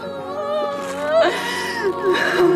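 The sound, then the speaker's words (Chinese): A girl cries at an emotional family reunion after 23 years, with continuous wavering, sobbing wails that stay moderately loud throughout. “哭了哈，哎，弟弟抱抱姐姐，安慰安慰姐姐。”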